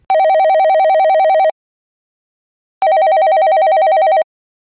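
A telephone rings in two long electronic bursts of a trilling, warbling tone, each lasting about a second and a half and separated by a pause, loud and alone.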